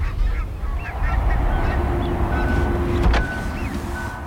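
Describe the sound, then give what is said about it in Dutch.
Greylag geese honk as they fly over an area where many geese gather. Several nasal, wavering honks come one after another over a steady low rumble. “Grauwe gans over, hè? Er zitten hier heel veel gans in dit gebied.”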